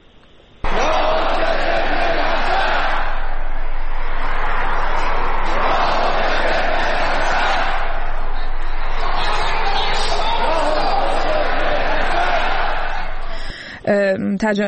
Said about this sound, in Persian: گرد همایی بود، مراسمی مذهبی بود در مشهد در یک استادیوم. صدا به هر حال نشون میداد که چه تعداد جمعیت در این استادیوم نشسته بودن.